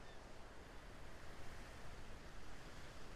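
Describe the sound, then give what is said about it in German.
Ocean waves wash in a faint, steady rush of surf, a dense hiss with gentle swells in loudness but no distinct single breaker standing out. “Und es tut gut, für einen Moment diesen Raum von Zeitlosigkeit, des ewigen Kommens und Gehens dieser Wellen zu genießen, in sich aufzunehmen”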